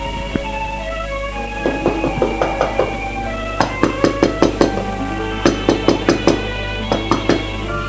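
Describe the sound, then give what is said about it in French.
Knocking on a door, heard as several quick bursts of sharp raps separated by short pauses, set against a steady, sustained musical drone. “On a frappé à la porte.”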